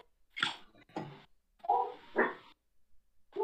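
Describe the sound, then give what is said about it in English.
A dog barking in a series of sharp, separate barks with short pauses between them, heard alone with no talk. “Excuse the dog.”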